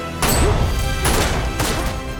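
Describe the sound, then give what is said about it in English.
Gunshots fired in a film scene, three loud, sharp bangs spaced unevenly across the moment, each with a short crashing decay. “Tree shoots and the bullets send Toombs reeling back.”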